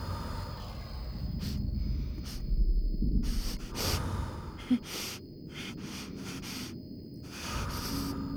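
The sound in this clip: Heavy, deep breathing from a person while the ground cracks around them: many ragged, airy breaths and gasps come in uneven bursts over a constant low rumble, with no talking.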